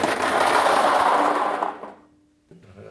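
Forty-nine balls pour into a lottery drawing machine before a draw, a dense rushing rattle and clatter that lasts nearly two seconds. It then fades quickly to near silence, followed by a faint knock.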